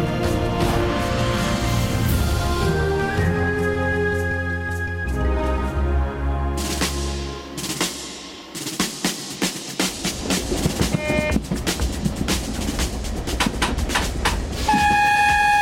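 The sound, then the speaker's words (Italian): Express train travelling on the Milan–Lausanne route, heard from a first-class carriage: a steady, dense rumble with sustained tonal hums, giving way to rhythmic clattering and clicks in the second half. “Nel vagone di prima classe del rapido Milano-Losanna è seduto un uomo non molto alto”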